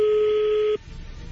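A telephone number being dialed: a single steady electronic keypad tone holds for just under a second, then cuts off, leaving faint low hiss.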